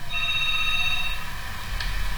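A telephone rings as a call-in line connects: a bright electronic ring with layered tones lasts about a second, then gives way to faint line hiss.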